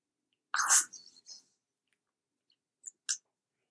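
A crisp bite into a purple fruit that tastes like apple, followed by a few soft, faint chewing clicks with silence between them.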